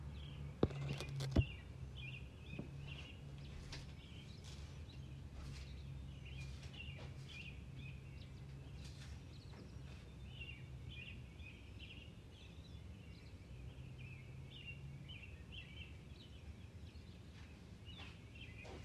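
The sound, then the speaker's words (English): Birds chirp faintly in short, high, repeated calls throughout, over a steady low hum. “Listen to the birds chirp.”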